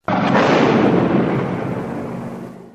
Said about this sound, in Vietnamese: Vừa chạm tay vào quả mìn thì một tiếng nổ dữ dội vang lên.